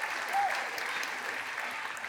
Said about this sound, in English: will you put your hands together and welcome three servants coming onto the stage?